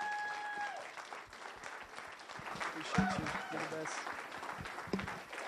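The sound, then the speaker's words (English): Applause from a church audience at a Sunday service: dense, steady clapping that fills the whole stretch, with voices mixed in among the hands. “Come on, give Jesus a bigger hand before you sit down. Like way bigger. Like way more.”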